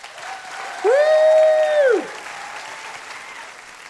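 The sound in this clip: Audience applause welcoming a guest to the stage: steady clapping throughout, with one loud, sustained cheer rising above it near the start.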